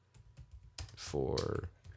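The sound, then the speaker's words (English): Typing on a computer keyboard: a few light key clicks under a louder voiced sound partway through. “I'm just gonna type it”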